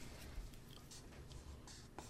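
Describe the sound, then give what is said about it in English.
A marker squeaks faintly as it writes on a board, with a few short, scratchy strokes over a low background hiss. “See if it'll write in another spot. Maybe you broke the marker.”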